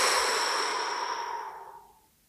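A long exhale released after a breath hold in a guided deep-breathing exercise: one airy, breathy rush that starts strong and fades away steadily over about two seconds, alone and without talk.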